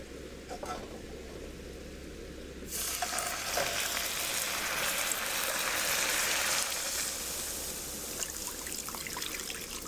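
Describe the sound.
Sugar caramelizing in a pan sizzles steadily over a low hum. Then water is added, and a louder, brighter hiss erupts and keeps seething to the end.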